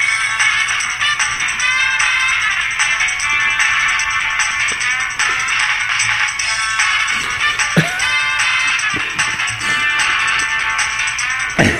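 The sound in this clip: A song played as theme music: loud, bright pop with chiming melodic lines and crisp percussive hits, running steadily throughout.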